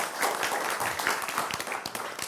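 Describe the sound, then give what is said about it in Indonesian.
Applause for a group of dancers, a dense and steady wash of many hands clapping together at a moderate level throughout. “Terus sekali lagi tepuk tangan untuk teman-teman penari.”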